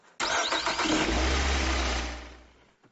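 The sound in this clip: A car engine starts: a quick cranking burst catches, then settles into a low, rumbling idle that fades away after about two seconds.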